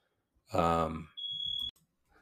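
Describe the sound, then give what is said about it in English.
A smoke alarm in a house, set off while someone is baking, gives one sustained, piercing high-pitched beep of about half a second. It comes right after a brief voiced sound. “you may have heard a fire alarm going off in my house. My wife is baking something right now, and I don't think she burned it.”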